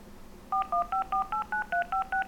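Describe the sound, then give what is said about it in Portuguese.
Telephone keypad tones sound as a phone number is dialed: about ten quick, evenly paced dual-tone beeps at shifting pitches, fairly quiet over a low background hiss, with no talk. “Deixa eu ligar pro mano meu.”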